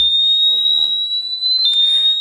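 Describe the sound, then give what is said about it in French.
A bicycle anti-theft lock alarm goes off as the locked bike is moved, giving a loud, steady, high-pitched electronic tone that holds unbroken through the whole stretch. “Hop, on verrouille l'antivol. Il est sur le vélo. Il bouge plus, il va s'initialiser. Et à partir du moment où je le bouge, je manipule une première alerte.”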